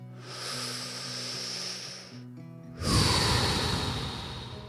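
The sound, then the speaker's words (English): Deep, airy breathing: a long, hissing breath, a brief pause, then a stronger, rougher breath, heard over a low, steady tonal hum. “We started with three deep breaths. Let's end with three.”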